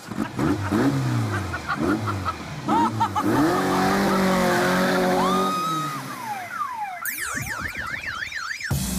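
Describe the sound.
Car engines rev hard at an illegal street race with repeated rising and falling sweeps and tire squeals, then a loud, warbling alarm-like whine takes over near the end.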